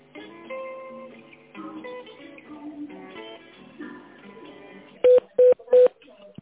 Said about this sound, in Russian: Секунду, я вас соединю с Надеждой